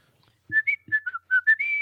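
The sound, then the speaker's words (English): Short whistled tune used as a teleportation signal: several quick high notes rising and stepping in a brief melody, ending on a held note, with a couple of low knocks near the start. “You all whistle that.”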